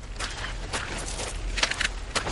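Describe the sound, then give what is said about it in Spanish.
Footsteps of a person walking outdoors with a cane, a few soft, irregular taps and scuffs over a steady background hiss. “Sale al exterior. Camina con el bastón y la pistola hacia las naves.”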